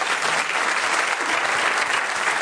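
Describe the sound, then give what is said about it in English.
Audience applause welcoming a pianist on stage: a dense, steady wash of many hands clapping, holding an even, fairly loud level for the whole stretch with no talk over it. “Would you please put your hands together for Elena Vorotko?”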